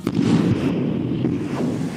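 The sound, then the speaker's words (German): Explosion of a magnetic mine attached from outside to a ship's hull in a harbour: a sharp blast onset that swells into a loud, sustained low rumble, with no voices. “als es zum zweiten Mal knallt”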